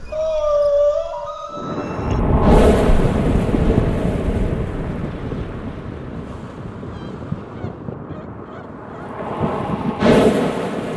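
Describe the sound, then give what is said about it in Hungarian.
Plastic waste rustling, made to imitate the sea: a broad, loud hiss that swells in and rolls on like breaking surf, easing off in the middle and surging again near the end, after a brief tonal note at the start. “Amit hallottál, az nem tenger volt, hanem műanyag szemét.”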